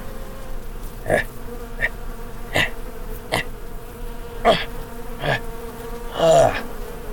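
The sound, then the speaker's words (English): Buzzing insects drone around in a steady hum, with several louder swells as bugs fly close and then pass away. No one speaks. “Man, this is so much to take in. Stupid bugs.”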